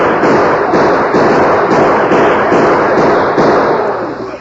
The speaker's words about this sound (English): Hey, get him. Shoot him down. Oh, get him.